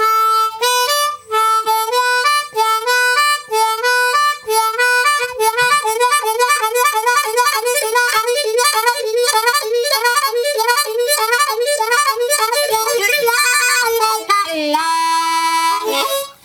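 Harmonica playing a fast repeated lick of four blow, four draw and five draw, shaped with hand vibrato: bright, clean reedy notes alternating quickly and steadily at a loud, even level, ending on a higher sustained tone.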